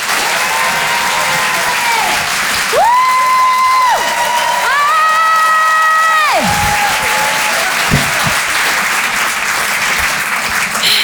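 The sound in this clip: Loud, sustained applause and cheering from a comedy audience welcoming a comedian to the stage. It holds steady for about eleven seconds with no talk over it.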